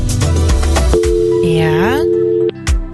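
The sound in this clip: Ringing tone of an outgoing phone call to a random number: one steady, held electronic note of about one and a half seconds, surrounded by talk and other sounds.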